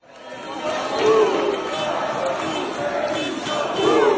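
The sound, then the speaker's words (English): A protest crowd in the streets of Tirana, Albania, gathers in the evening against Prime Minister Edi Rama. Many voices chant and shout in a steady, moderately loud roar that swells in a few places. “This has been the sound in the streets of Tirana every evening for the past 2 months. Protesters gather outside the offices of the embattled Prime Minister, Edi Rama, and then march throughout the various neighbourhoods in the city.”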